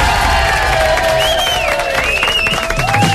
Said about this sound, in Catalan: I us porto al públic de la tarda!